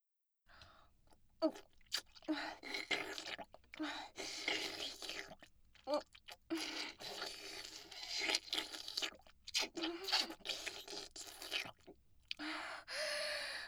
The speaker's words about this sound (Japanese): 本当においしい。ずっと舐めていられるわ。